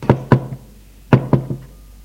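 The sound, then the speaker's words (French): Knocking on a door: two groups of three knocks, each group opening with two firm raps and ending with a softer one, separated by a short silence. “frappe à une porte”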